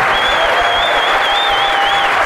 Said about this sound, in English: can we have a huge a round of applause for our amazing guests, Samira Ahmed, Mark Lewison